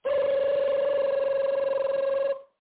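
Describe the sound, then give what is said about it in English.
A telephone rings in one continuous buzzy trill at a steady pitch for a little over two seconds, then cuts off. The ring is fairly loud and heard alone. “Phone! Get your fucking phone now!”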